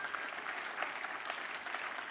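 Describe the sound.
Applause from a church audience during a sermon: a steady, even wash of many hands clapping, fairly faint, with no pauses and no voices on top.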